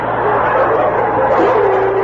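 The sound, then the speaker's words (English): Dogs bark and yelp together in a dog hospital's measles ward, forming a dense, unbroken chorus that holds steady throughout. “The scene, the measles ward of the Battersea Dogs Hospital.”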